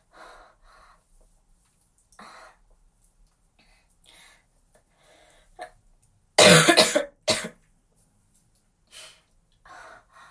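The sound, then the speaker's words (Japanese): Two loud, harsh coughs come close together in the middle, surrounded by faint breathy sounds and soft mouth noises, with no clear speech. “咳出ちゃってごめんなさい”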